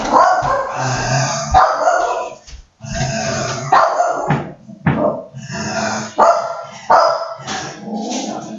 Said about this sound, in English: Sorry about that, that was the dog barking to get out.